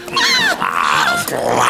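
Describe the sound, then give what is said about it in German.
A wolf's growl in a fairy-tale scene, a few rough, snarling bursts with wavering, whining pitch, loud and alone. “Ah, der Wolf!”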